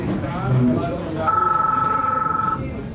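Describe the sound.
A telephone rings in Utrecht, a single warbling electronic ring of about a second and a half that rises clearly over low background noise, which continues after the ring stops.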